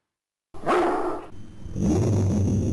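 A dog bark played from a soundboard during a phone call: one sharp, loud barking burst, then a lower rumbling noise that runs to the end.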